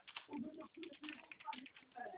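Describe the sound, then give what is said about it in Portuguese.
Typing on a computer keyboard: many quick, light key clicks in an uneven run, with people talking over the tapping. “Aí agora você vai digitar lá em cima de novo outro banco.”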